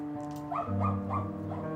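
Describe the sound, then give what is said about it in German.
A dog in an animal shelter whimpers and yelps in a few rising, whiny cries in quick succession over a steady humming background. “Hier warten diese Hunde dann, manchmal jahrelang, bis sie wieder jemand haben will und ihnen ein neues Zuhause bietet.”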